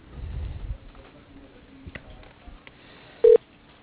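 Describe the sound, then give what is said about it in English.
Telephone line as a call is transferred to voicemail: a narrow, muffled hiss with a few faint clicks and thumps, then one short, loud beep near the end. “I'll just transfer you directly to his voicemail, and then you can let him know whatever, and then he'll call you back.”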